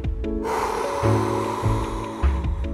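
Forceful exhale in an energising breathing exercise: one long, rushing breath pushed out hard, starting after a brief pause and holding steady, with a few snort-like pulses through it.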